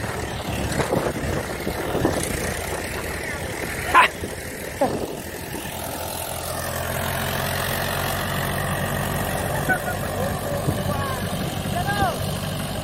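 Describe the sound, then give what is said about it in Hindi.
A slow-moving farm tractor pulling a trolley over a muddy track gives a steady, low engine drone that continues through the whole stretch without clear changes in pace. “एक tractor slow है बिल्कुल। ये देखे किसान भाइयों पिछला tractor बिल्कुल slow है,”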